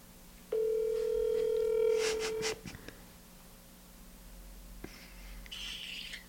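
A mobile phone call to a mother being placed sounds one steady, mid-pitched electronic tone lasting about two seconds, followed by a few clicks and quiet line noise, with a brief brighter burst near the end.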